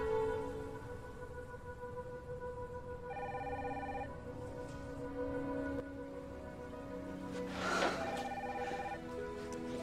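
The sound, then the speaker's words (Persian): A telephone ringing: two electronic ring bursts, the first about a second long and the second running to the end, over a steady low hum and sustained background tones. “الان است که حاکی زنگ بزن و پیشنهادش بهت بده.”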